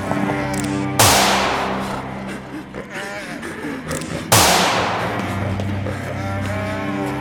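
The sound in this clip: Two loud gunshots, each a sharp crack with a long decaying tail, the first about a second in and the second a few seconds later, over a steady low droning background.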